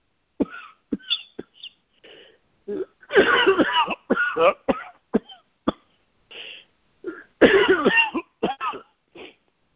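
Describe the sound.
Harsh coughing, in many sharp bursts and short fits with brief pauses between, some bursts louder and longer than others, with throat-clearing sounds mixed in.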